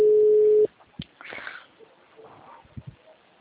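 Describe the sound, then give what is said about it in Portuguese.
A telephone tone sounds after a dropped call: one flat, steady, mid-pitched hum lasting under a second, cut off abruptly, followed by faint rustling and breathy handling noises. “Alô? Oi, a ligação tinha caído.”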